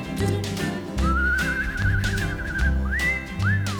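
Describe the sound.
A person whistles a tune: a long wavering note, then two shorter rising-and-falling glides, clear and fairly loud throughout.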